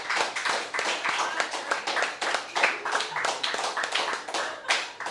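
Applause from a small audience at a charity poetry-reading marathon, honouring the event organiser: dense, even clapping that carries on steadily for about five seconds with no voices on top.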